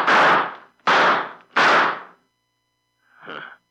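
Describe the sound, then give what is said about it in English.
Gunshots fired at a person in the dark: three loud, sharp reports in quick succession, each with a long ringing tail, then after a pause a fourth shot, noticeably fainter. “Took a couple of shots at me and ran.”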